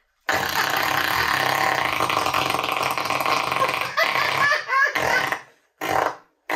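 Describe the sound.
A voice imitates a long fart with the mouth: a loud, sustained buzzing raspberry that rasps on for several seconds, then breaks into a few shorter sputtering bursts at the end.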